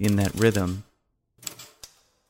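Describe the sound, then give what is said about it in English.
Typewriter keys clack a few times in a sparse rhythm, sharp isolated strikes that follow a short stretch of someone talking. “I was standing near the typewriter, and since it's such a rhythmic piece, I just started to type”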